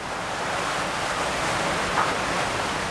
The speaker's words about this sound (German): Unten, es fährt einem der Schreck in die Glieder, spritzt ein faustdicker Wasserstrahl am Maueransatz des Schleusentors heraus.